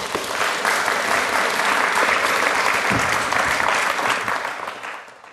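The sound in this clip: Audience applause welcoming a speaker to a lunchtime talk, steady and fairly loud, then tapering off near the end.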